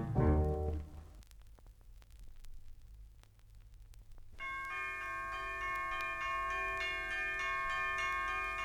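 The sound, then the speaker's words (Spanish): Bells ring out in a children's song with bright, sustained, shimmering tones through the second half, after a quieter stretch of faint crackle and low sound. “las campanas don dindan repicando lo dirán”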